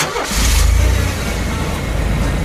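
A car engine starting and revving during a driving lesson: a deep, loud rumbling roar that surges early, then holds at a steady idle-like drone.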